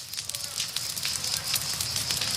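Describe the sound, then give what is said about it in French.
Crackling of a forest fire whose flames are being fanned back up by wind: a dense, steady rushing roar studded with many sharp pops and snaps, heard throughout with no clear talk. “le vent vient de faire repartir les flammes”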